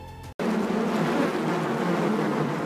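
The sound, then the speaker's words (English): Dense, steady buzzing of many honeybees: a loud, continuous drone with a low hum underneath that holds level after a brief cut at the start. “Honeybees. We know them to be hardworking and intelligent, industriously turning nectar into honey.”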